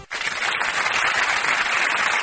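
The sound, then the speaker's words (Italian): Audience applause: dense, steady clapping that starts abruptly after a brief gap and holds at an even, fairly loud level, with no voices standing out. “No, ci stava veramente l'applauso”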